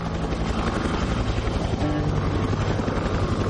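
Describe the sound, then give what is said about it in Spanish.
A helicopter flies over a valley during a rescue, producing a loud, steady rotor drone with a faint rhythmic pulsing that fills the whole stretch without a break. “El helicóptero sobrevuela el valle.”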